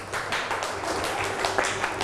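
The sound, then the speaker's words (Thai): Students in a class clap for a classmate, a dense patter of many hand claps at moderate loudness, continuing evenly throughout. “เก่งมากค่ะปรบมือให้เพื่อนหน่อยลูก”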